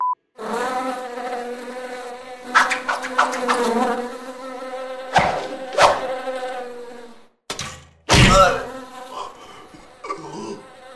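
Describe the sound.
A bee buzzing through a comic orchestra-pit sound sequence: a droning, reedy whine that wavers up and down in pitch, broken by a few sharp thuds and brief gaps of silence.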